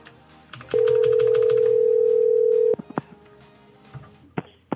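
A telephone tone on a disconnected phone line: a loud, steady, mid-pitched tone held for about two seconds, then scattered clicks and a couple of short, sharp beeps.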